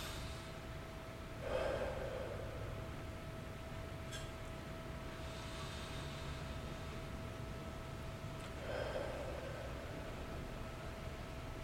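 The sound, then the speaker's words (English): Two slow, deep breaths, soft and airy and several seconds apart, against a steady hiss and a faint constant tone. “take a couple more deep breaths.”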